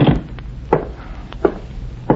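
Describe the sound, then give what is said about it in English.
Light metallic clicks of a bobby pin being worked in a door lock: a few sharp, isolated ticks at irregular intervals, with no talk. “Just testing my bobby pin on your lock.”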